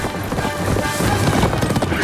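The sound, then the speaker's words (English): Racehorses gallop in a race, their hooves making a loud, dense, continuous drumming rumble with no clear separate beats. “The horses race toward a steep hill.”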